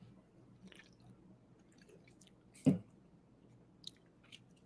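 A single short, wet sip of lager beer, quiet, with faint mouth and liquid sounds before and after and no talking.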